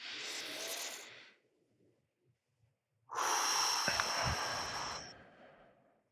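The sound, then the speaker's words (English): A person takes a deep, slow breath during a relaxation exercise. There are two breath sounds, the second longer and fuller, with a quiet pause between them. The breathing is soft and unaccompanied by talk. “Right, let's take a deep breath.”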